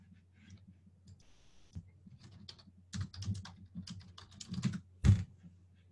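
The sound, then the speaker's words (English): Someone types a search on a computer keyboard, producing many soft, quick key clicks in an uneven rhythm, with a few louder taps toward the end, all faint over a steady low hum. “So I typed in Fargo ND plumber.”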